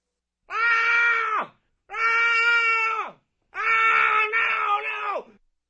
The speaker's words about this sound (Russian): Жуткий, леденящий кровь крик